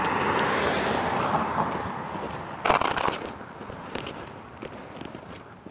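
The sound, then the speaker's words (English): Brisk footsteps of someone walking fast outdoors in the cold, a steady run of soft, quick steps over a constant rushing background noise that gradually grows quieter. “Trying to walk fast enough to build up some body heat.”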